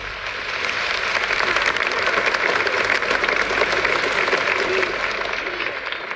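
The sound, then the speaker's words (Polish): Applause from a church audience during a Pentecost sermon, rising quickly into a sustained, dense patter of clapping that stays steady for several seconds before tapering off. “moi drodzy, ja już od wczoraj myślę nad tym, co znaczą te oklaski.”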